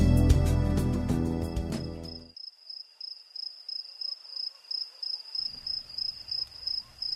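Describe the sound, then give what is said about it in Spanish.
Crickets chirping after rain: a high-pitched trill pulsing in a regular rhythm, heard alone after a louder sound at the start fades away. “Esos grillos están dándote serenata. Están felices porque ha llovido. Por eso cantan.”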